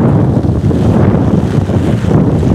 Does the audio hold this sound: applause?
no

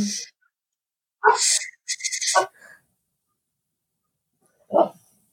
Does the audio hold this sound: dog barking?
yes

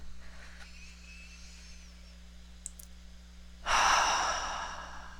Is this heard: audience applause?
no

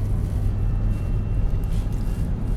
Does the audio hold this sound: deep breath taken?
no

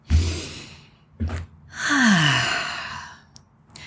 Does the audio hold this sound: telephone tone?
no

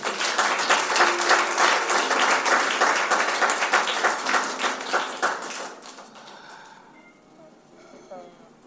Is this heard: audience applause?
yes

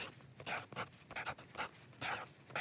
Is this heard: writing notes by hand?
yes

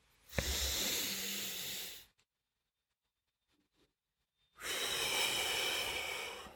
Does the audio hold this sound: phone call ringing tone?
no

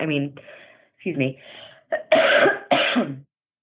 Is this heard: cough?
yes

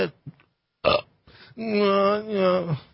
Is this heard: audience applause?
no

